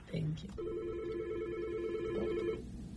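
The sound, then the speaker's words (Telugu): An incoming telephone call rings as a steady, warbling electronic tone that lasts about two seconds at a moderate level. A brief voice comes just before it. “నాకు ఇంకొక call వస్తుంది”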